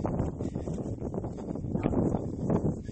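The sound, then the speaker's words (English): Wind buffeting a microphone outdoors during a walk with dogs, a continuous low rumbling roar with uneven gusty swells, moderately quiet and without speech. “I feel like it wasn't even this windy when I first stepped outside, but as soon as I start recording, it gets windy.”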